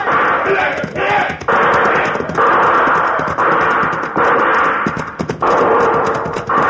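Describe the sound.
Several horses galloping in a western posse chase, a dense, continuous rumble of hoofbeats with shouting voices mixed in, loud throughout with brief dips.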